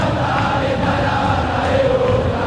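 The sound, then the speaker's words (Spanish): A football crowd sings its song during a Boca versus Unión match, a dense, steady roar of many voices with a faint sustained chant running through it at an even loudness. “Canta al público su canción, la tiene Unión.”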